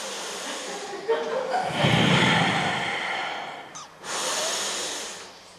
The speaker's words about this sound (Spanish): Por favor, vamos a respirar aquí todas juntas.